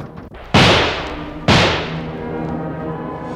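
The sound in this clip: Shotgun fire: two loud, booming reports about a second apart. Each has a sharp onset and a long, rumbling decay.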